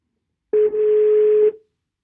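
One telephone ringing tone during a call: a single steady, low-pitched hum lasting about a second, loud and alone, then silence.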